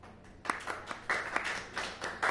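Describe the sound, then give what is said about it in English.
Faint applause from a small live audience: scattered handclaps from a few people come in loose, uneven bursts after a quiet start, light and thin rather than a full ovation. “Raise of applause, because it's a podcast. Raise of applause. Okay. Shut it. Go on, go on. Round of applause.”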